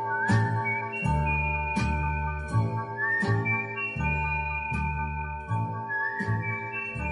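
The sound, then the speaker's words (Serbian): A person whistles a signal tune inside a song. The bright melodic whistle holds notes and glides between them over steady rhythmic music with regular beats. “Zviždim tad naš stari znak.”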